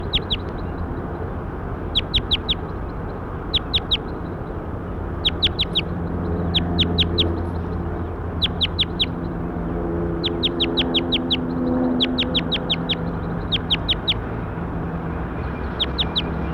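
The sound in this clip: Bird calls in a field recording: thin, high chirps repeated in quick clusters of two to four throughout, over a steady low background noise.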